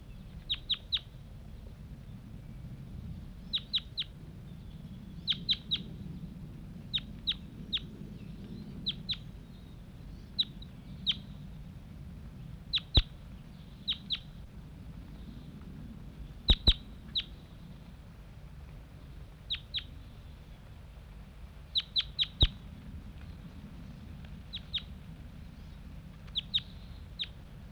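Birds call after just being released from a net site and flying off down a hollow; many brief, faint, high chirps come in quick pairs and clusters, scattered irregularly over a quiet low rumble.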